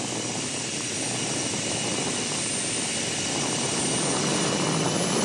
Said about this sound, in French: quand j'accélère, j'entends la turbine qui se met en route.